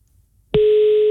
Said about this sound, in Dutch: Ik ga nu gewoon op de dialknop drukken en dan hoop ik dat hij overgaat. Eens kijken. Ja, hij gaat over, dat is mooi.